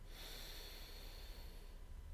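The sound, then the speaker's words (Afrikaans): A deep breath drawn in through the nose as a relaxation exercise: one long, steady, airy inhale that holds at an even loudness for about two seconds, heard alone without speech. “Ons 'n paar keer so 'n lekker diep asem saam met my. In by jou neus, uit by jou mond. Nog 'n keer lekker diep in”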